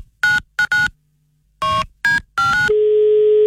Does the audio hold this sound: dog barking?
no